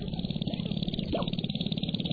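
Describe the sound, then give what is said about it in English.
Male sharp-tailed grouse call at a lek on a North Dakota prairie at dawn in April during their mating display. The sound is a steady, rapid pulsing drone like little motors running, with regular throbbing beats throughout. “At first light, we see the source of this otherworldly chorus. Male sharp-tailed grouse performing their elaborate mating dances.”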